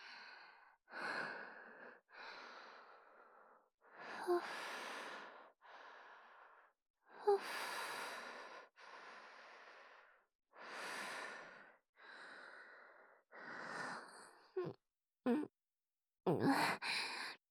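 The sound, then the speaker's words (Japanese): Deep, slow breathing to calm down: many soft, breathy inhales and exhales follow one another with brief pauses. Toward the end the breaths turn shorter and sharper. “ドキドキが止まんなくなっちゃった。ちょっと深呼吸させて。”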